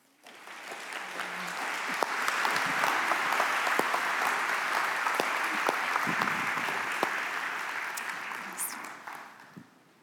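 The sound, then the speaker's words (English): Audience applause welcoming a speaker: dense, steady clapping from many hands that swells quickly at the start, holds evenly for several seconds, then fades out at the end. “Would you do me a favor and give a big kind of mount welcome for Mama Lily?”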